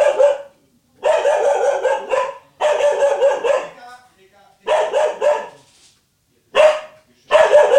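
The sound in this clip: A dog barks in rapid, sharp clusters, with several bursts of repeated barks separated by brief silences.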